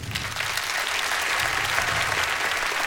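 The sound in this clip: Audience applause for a guitarist at a live band performance: dense, steady clapping that holds at an even loudness for the whole stretch, with no voices over it.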